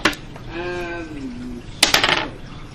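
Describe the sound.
Dice rolled during a tabletop wargame. A short burst of rapid, bright clattering clicks sounds near the end, after a quieter stretch.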